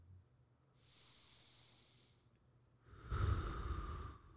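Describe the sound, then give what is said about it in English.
Heavy breathing from a person sitting in mock meditation with eyes closed: a softer, airy breath comes first, then a louder, rougher exhale with a snorting edge, heard alone. “When you breathe like that, you remind me of like The Sixth Sense. like someone in a movie that's about to kill someone else.”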